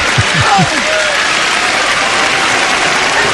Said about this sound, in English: Now, it sounds like the audience appreciates this a little more. Listen to the audience.